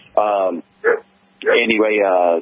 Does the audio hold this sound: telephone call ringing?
no